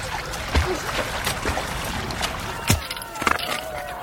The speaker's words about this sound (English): Another rock fall. The whole place is caving in. Come on. Come on. Get ahead of the water.